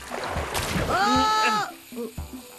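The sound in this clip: Water is splashed onto people in a broad, rushing splash, with a voice crying out over it and a few short voice sounds afterward.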